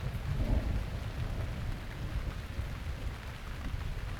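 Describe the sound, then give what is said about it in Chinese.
Steady rain falls in bad weather: a continuous, dense hiss over a heavy low rumble that runs unbroken from start to end, with no voices. “最近天气还是有点不好，既然下雨了，”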